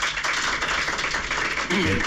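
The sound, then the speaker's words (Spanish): Journalists applaud the Deportivo Alavés coach after his speech in the Westfalen stadium press room. A brief, steady patter of many hands clapping is joined near the end by a voice starting to speak. “Así acababa el discurso del técnico del Deportivo Alavés en la sala de prensa del Westfalen. Eran los aplausos de todos los compañeros de la prensa y no solo de los que fuimos desde aquí, sino también de los ingleses.”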